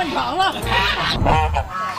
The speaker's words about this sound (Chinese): 那这个鹅呢，就是我们非常标准的一个皖西鹅的额头额包，它应该是2年的鹅了吧？